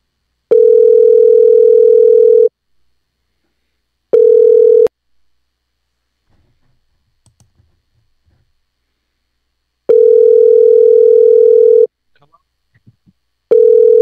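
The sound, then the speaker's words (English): A telephone call rings out: a steady, mid-pitched ring tone sounds in bursts of about two seconds, several times over, with stretches of silence and a few faint clicks between them. “I'm going to keep calling them until they block this number.”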